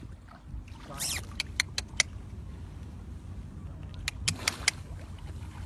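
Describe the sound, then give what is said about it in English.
Dolphins swimming up to the docks of a port in Sardinia: two bursts of sharp, rapid clicks over a steady low rumble of harbour water. “That was the sound of dolphins swimming up to the docks of a port in Sardinia.”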